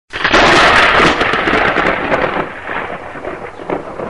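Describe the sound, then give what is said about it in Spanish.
A thunderstorm: loud rolling thunder over steady, hissing rain, a broad roar that bursts in at once and slowly eases while the downpour keeps going. “En Puerto Rico hay tormenta.”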